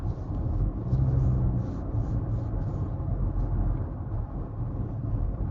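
Steady road rumble of a car driving along Chilton Road toward the White Horse Pike, a continuous low engine and tyre drone throughout with no talk.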